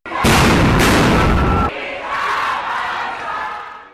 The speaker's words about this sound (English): Police fired stun grenades to disperse the students.